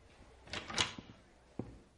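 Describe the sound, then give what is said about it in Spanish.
A classroom door closes at a high school: a few quiet clunks and clicks, with a cluster of knocks early on and one sharper click near the end, over faint room hiss. “Walt cierra la puerta de clase.”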